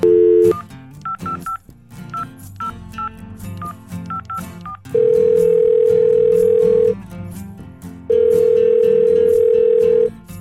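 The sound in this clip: A telephone ringing tone sounds while a call is placed: a quick run of short dialing beeps comes first, then two long, steady, loud ringback tones with a pause between them. No voices are heard.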